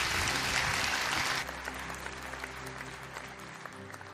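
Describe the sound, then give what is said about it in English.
A church audience applauds as new members are welcomed into the church. The clapping is dense and loud at first, then drops to a softer, steady patter that continues to the end. “let's put our hands together and welcome some people into God's family today.”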